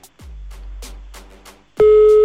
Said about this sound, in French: Attends, ça sonne,